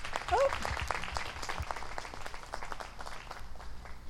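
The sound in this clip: An audience applauds to welcome a speaker presenting a new Ontario County program: a crackling wash of clapping hands that swells early, then carries on at a moderate, slightly uneven level.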